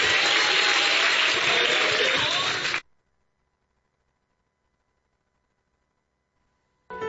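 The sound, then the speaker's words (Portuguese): A church audience claps: dense, steady applause for about three seconds that cuts off abruptly into silence. “Pode bater palma e dar glória a Deus, igreja!”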